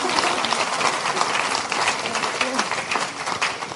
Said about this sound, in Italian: Nora Bussigny, alla quale farei un applauso,